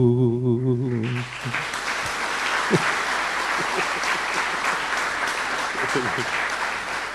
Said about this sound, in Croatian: Zejd zaslužio aplauz za ovako krasnu pjesmu